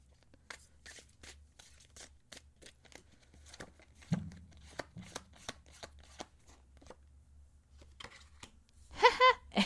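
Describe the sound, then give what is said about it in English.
Tarot cards shuffled by hand before a card is pulled, many crisp, papery riffles and flicks in quick irregular bursts, mostly quiet with a louder flurry near the end. “We'll just each pull a card for that.”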